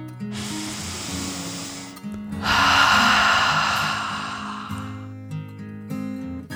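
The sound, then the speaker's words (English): A deep breath is drawn in and let out: a soft airy inhale, a short pause, then a longer, louder exhale that slowly fades. “He took another deep dragon breath, in and out.”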